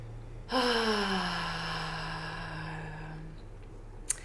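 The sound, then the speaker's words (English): A long, deep breath taken during a guided breathing moment: one sustained voiced exhale, sigh-like and fairly loud, that starts abruptly and fades slowly over about three seconds. “I'm just taking some deep breaths.”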